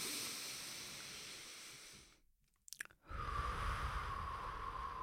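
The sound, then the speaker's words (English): Deep breathing: a long, soft, hissing inhale, a short pause with faint clicks, then a long, airy exhale. “I want everyone to take a big inhale, big exhale”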